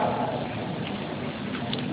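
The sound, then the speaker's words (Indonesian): Steady rain falling, a dense, even hiss of drops that holds at a constant level throughout with no distinct impacts standing out. “Gak apa-apa hujan, berkah insya Allah.”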